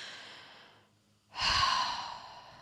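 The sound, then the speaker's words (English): A single deep breath, faint and airy at first, then a brief hush, followed by a louder, rushing breathy surge that slowly tapers away, with no talking. “I'm going to take a deep breath just to get my body ready”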